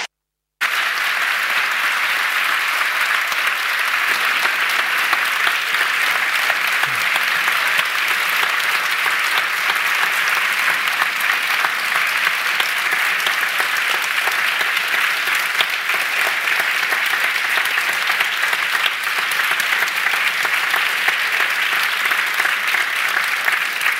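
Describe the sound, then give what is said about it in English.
After a brief silence, an audience breaks into long, loud, sustained applause welcoming speakers Chelsea Manning and James Bridle at a public talk. The clapping stays dense and steady for over twenty seconds. “So I'd now please ask you to put your hands together and join me in a very warm and thankful welcome to Chelsea and James.”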